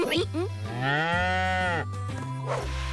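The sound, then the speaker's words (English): A cow gives one long, full moo with a rich, droning tone that holds steady for over two seconds before cutting off. “Did somebody order a beautiful cow?”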